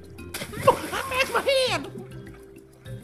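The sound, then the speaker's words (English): Splashing and sloshing water as someone weighed down by a backpack kicks and thrashes in a murky lake. A burst of churning splashes mixes with a strained, gurgling voice, then the water quiets. “he kicks and thrashes desperately, trying to reach the surface.”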